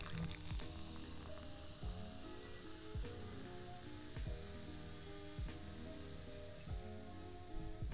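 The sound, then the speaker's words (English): Opened cans of root beer fizz with a continuous bright hiss that stays steady throughout. Soft background music plays underneath. “So anyway, we're going to crack these guys open.”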